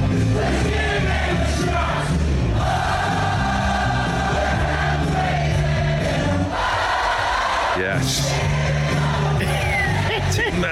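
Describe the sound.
An audience sings along loudly with a rock song at a live DJ set. Many voices shout and chant together over continuous, dense music.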